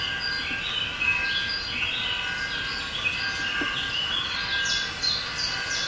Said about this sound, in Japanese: 鳥の声ですよね。